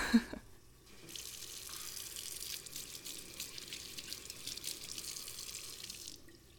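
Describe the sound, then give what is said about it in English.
A running tap as someone washes their hands under it. A brief clunk comes first, then a steady splashing hiss of water that continues evenly for several seconds before cutting off. “Yeah, let me just wash my hands.”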